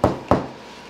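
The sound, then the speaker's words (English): Someone knocks on a door twice in quick succession, about a quarter second apart. Both knocks are dull and fairly loud, and a short, fading tail follows them. “I want to try knocking on the door again, like, okay, I did. I saw this before. Okay. So you knock on the door.”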